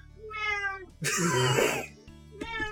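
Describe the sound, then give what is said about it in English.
A newly adopted cat meows twice, a drawn-out tonal cry and then a shorter one, with a rough, breathy burst between them. “And that's a cat.”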